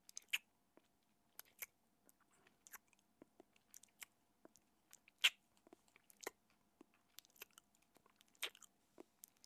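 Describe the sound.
Chewing of a plum manju, a steamed bun, with many irregular soft smacks and sharp mouth clicks spread unevenly throughout, heard alone without talk.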